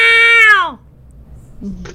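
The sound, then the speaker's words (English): A cat meows in a film scene with one loud, drawn-out cry that slides downward in pitch. A quieter low murmur follows near the end. “This is the same cat from Cat from Outer Space. That was such a cute little cat.”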